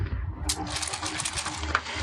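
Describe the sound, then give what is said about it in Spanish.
Diamonds clinking inside a canvas bag passed from hand to hand: a few bright, glassy clinks and jingles over soft rustling, with a sharp tick near the end. “El sonido cristalino de los diamantes, al pasar la bolsa de mano en mano, enciende el rostro del piloto al tiempo que sostiene entre sus manos la bolsa de lona.”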